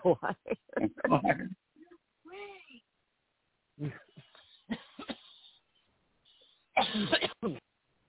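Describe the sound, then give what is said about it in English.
A residual cough linked to medication comes through as short, harsh bursts and throat clearing, scattered among quiet stretches and soft talk, with a dense cluster near the start and another near the end. “And I do need to apologize for the residual cough I have from all the medication.”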